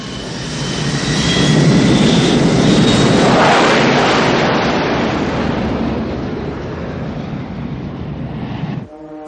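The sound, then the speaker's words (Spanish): A jet airplane takes off in the 1996 action film Eraser: a loud, broad engine roar swells over the first two seconds, holds, then slowly eases before cutting off sharply near the end. “Al poco, el avión despega.”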